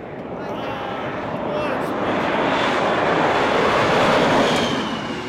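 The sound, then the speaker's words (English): Aircraft noise at a small town airport: a broad, steady engine roar that swells gradually over several seconds, holds loud near its peak, then eases slightly at the end. “This week's Sound of Meeker, Coulter Airport.”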